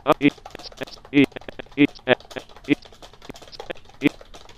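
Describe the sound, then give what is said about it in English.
Quick clicking of a computer keyboard as a short message is typed, many light irregular keystrokes broken by brief, louder bursts of a voice. “Now we are in the body of the message, and I will just type a quick couple of sentences to myself.”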